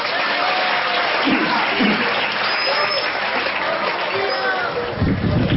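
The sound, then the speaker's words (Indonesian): Santri students applauding at an Islamic religious lecture, with a steady round of clapping lasting several seconds and voices mixed in. “Ayo, siapa santri yang mau ke depan? Oke, okay, maju. Kasih aplaus dulu.”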